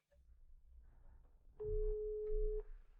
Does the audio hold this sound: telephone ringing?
yes

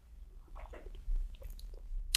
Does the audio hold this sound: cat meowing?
no

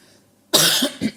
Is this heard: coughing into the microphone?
yes

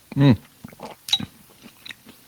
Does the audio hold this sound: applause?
no

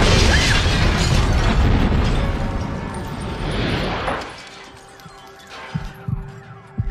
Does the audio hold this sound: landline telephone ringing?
no

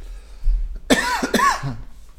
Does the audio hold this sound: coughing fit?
yes

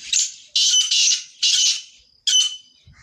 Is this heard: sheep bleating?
no

